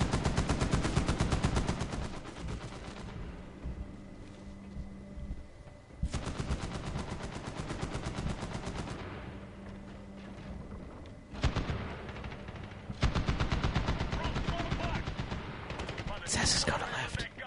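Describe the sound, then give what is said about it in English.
Rapid chain-gun fire in a video game, loud and relentless, arriving in long dense bursts of rattling shots broken by brief lulls, with heavy booming impacts layered through the barrage. “You gotta kill the guy in, like, the chain gun. He's still mowing people down.”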